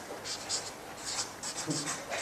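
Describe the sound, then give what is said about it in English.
Writing with quick, scratchy pen strokes in short bursts, soft and light. “Could you write that? Bondholders.”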